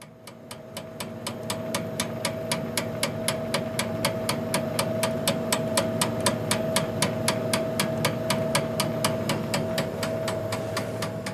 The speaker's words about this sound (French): Alors là, ce que vous venez d'entendre, c'est une enrobeuse. C'est ce qui nous permet d'enrober les chocolats une fois qu'on a fait l'intérieur.